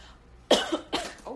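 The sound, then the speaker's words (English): Coughing after choking on a breath: a few sharp, harsh coughs in quick succession, the first the loudest, with no speech. “Oh, I took a breath. I choked a moment.”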